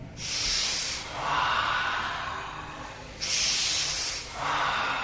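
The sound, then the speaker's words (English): Deep, slow breathing during a guided meditation session: two full breath cycles, each a bright, airy rush of air followed by a softer, duller one, with no talking. “So we'll take an inhale, relax.”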